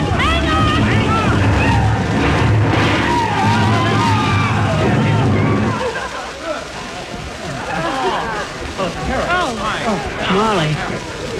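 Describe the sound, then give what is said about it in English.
A radio comedy sound effect of a streetcar crashing off the road: loud, continuous rumbling and clattering noise. Excited voices shout over it, and it turns into a more broken, chaotic clatter partway through. “We're off the track, Mr. Wilcox. Oh, heavenly days. We're going to wreck it. Steer it, McGee. Steer it. What do you mean, steer it? You can't steer a streetcar. Oh, hang on, everybody. We're going off the road.”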